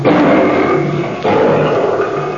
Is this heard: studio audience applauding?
no